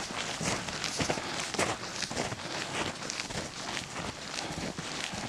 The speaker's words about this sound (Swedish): Jag får inte använda vägar. Så jag går, får gå här vid sidan av i snön.